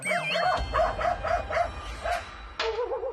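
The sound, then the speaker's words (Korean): A small dog barking as it paces in front of a yard feeding spot: a quick, even run of many high, yappy barks, then a thin whimpering whine at the end. “그 사이 마당 식당 앞을 서성이는 강아지.”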